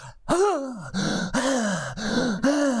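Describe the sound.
A voice imitates the big, heavy breaths a boy made between bits of his own basketball play-by-play. There are five loud, voiced, groaning exhalations in a steady rhythm, each with an arching pitch, and no other sound.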